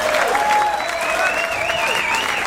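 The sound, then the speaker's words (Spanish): Audience applause for winners at an awards ceremony for military universities and armed forces: loud, dense, steady clapping from a large crowd that continues unbroken throughout. “Un gran aplauso también para todos ellos.”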